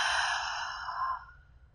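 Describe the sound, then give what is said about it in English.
Deep breathing: one long, steady breath of air that fades out over about a second, soft and breathy, with no voices. “take three deep breaths with me. Inhaling and exhaling.”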